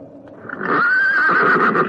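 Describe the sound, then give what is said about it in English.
A pony whinnies near a graveyard. A soft, low rumble swells into a loud, sustained, wavering neigh that holds its pitch to the end, heard alone. “God, I walked straight into the pony. I didn't see it.”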